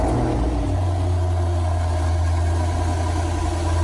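Car engine running at a motoring festival, a loud, continuous low rumble that shifts slightly early on and then holds a steady drone, with no voices.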